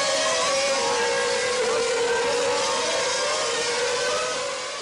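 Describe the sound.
A Formula 1 car races round the final corner, its engine a steady, high, buzzing whine with layered harmonic tones that holds level and then fades slightly at the very end.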